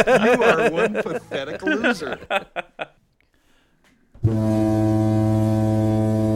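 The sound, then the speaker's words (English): A deep foghorn blast starts abruptly after a stretch of people talking and a short pause, then holds loud and steady until the end. “That's what the foghorn sounds is for.”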